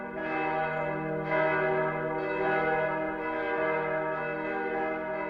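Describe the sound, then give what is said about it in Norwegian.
Church bells ring at a funeral in a church in Sweden on a Friday morning: loud, sustained, resonant ringing with repeated strikes that blend into one continuous chiming tone. “Vi hørte kirkeklokkens herlige klang, og det en tung formiddag, en fredag.”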